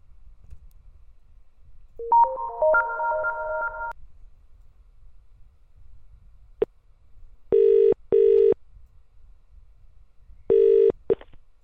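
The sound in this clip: Telephone call being dialled on a UK line: about two seconds of stepped dialing tones, then a click and quiet. A double-ring burst of ringback tone follows, then another ring begins before the line ends.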